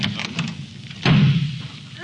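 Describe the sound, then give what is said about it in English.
A door slams with one heavy, low thud about halfway through, with voices around it. “That door slam wasn't Robert. It was Tony Curtis leaving the studio.”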